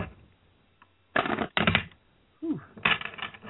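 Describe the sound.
Playing cards from a new, slippery deck are shuffled during a card trick. The shuffle comes as a few crisp riffling bursts separated by short pauses and is fairly soft throughout.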